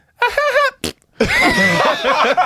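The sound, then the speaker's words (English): A voice imitating a fart, with a short buzzing burst, a brief puff, then a longer raspy, sputtering stretch, loud and alone. “She farted on my head.”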